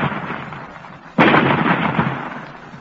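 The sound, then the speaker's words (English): A single loud blast from a cannon fired at a rock to split it, erupting suddenly out of a steady rushing noise and then trailing off into a long rumbling roar. “Ready with the range? They have found the range, Commander. You may fire. Fire! Look, the rock is splitting.”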